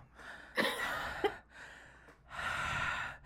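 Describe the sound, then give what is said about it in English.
Heavy breathing from a person: three long, rasping breaths with sharp gasping catches in the first, loud and alone. “Can we extend that breathing out?”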